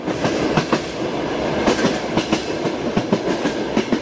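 Rhythmic clickety-clack of a train's wheels over the rail joints: many sharp clicks falling loosely in pairs above a steady rumbling roar, with no voices.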